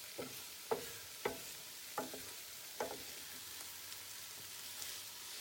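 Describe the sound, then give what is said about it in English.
Onions frying in a frying pan, giving off a soft, steady sizzle while a few sharp scraping knocks mark the stirring. The sound stays quiet and there is no talk. “And I just moved over to my frying pan to give my onions a stir. And they are getting soft, I can feel them.”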